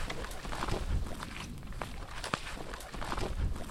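Footsteps of hikers climbing over slushy, moist tundra, a steady run of soft, wet crunching steps at moderate loudness.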